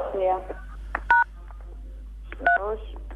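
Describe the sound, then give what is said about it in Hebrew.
Telephone keypad tones, the pound key then 3, 4 and 7, sound as a few short, bright beeps spaced apart, with a voice speaking between them. “תעשי עכשיו סולמית, 347, תגידי אם את שומעת משהו.”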